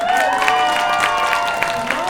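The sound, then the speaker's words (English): Audience applause welcomes a performer to the stage at a Brain Awareness Week comedy show. Loud, dense clapping is mixed with crowd noise and holds steady without fading. “please put your hands together for Noah Guyberson.”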